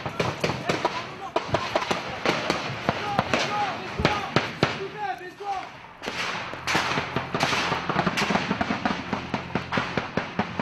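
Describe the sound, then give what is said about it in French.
Gunfire from approaching insurgents comes as harassing shots: many sharp cracks and thuds, some in rapid clusters, fairly loud throughout, with a voice speaking over them. “C'est alors que des tirs de calage se font entendre, les insurgés se rapprochent.”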